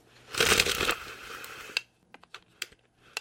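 A blade eased back and folded into its cover, first a burst of scraping, crunching rustle, then a scatter of small, sharp clicks and ticks, all fairly quiet.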